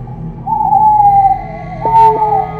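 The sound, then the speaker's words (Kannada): Owl hooting in front of a house at night in a horror story: a long, clear, slightly falling hoot, then a shorter second call, loud against a faint low hum. “ಯಾವತ್ತೂ ಇಲ್ಲದ್ದು ಆ ದಿನ ಅವರ ಮನೆಯ ಮುಂದೆ ಗೂಬೆಯೊಂದು ರೋಧಿಸಲು ಶುರು ಮಾಡಿತ್ತು”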